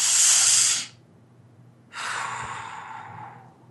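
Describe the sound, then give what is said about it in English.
Two deep breaths, each a loud, airy, hissing rush of air. The first is short and the second longer and slightly softer, with a quiet pause between them and no talking. “we're going to take a deep breath, another one.”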